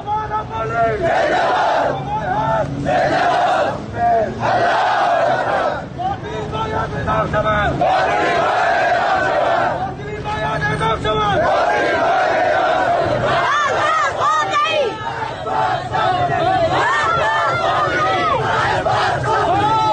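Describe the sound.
A protest crowd in Rask, Iran, chants in unison: loud, massed voices repeating slogans in a steady rhythm, with brief dips between phrases and the chant continuing throughout.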